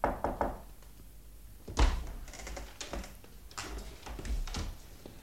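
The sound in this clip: A door makes a few knocks and dull thuds, with one heavier thump standing out. Scattered softer taps and faint rustling fill the gaps between them.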